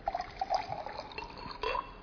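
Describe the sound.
Still water pours out of a container in a steady stream, with a gurgling, fill-like tone and a few splashy surges. A brighter gush comes near the end. It is fairly faint and there is no talking.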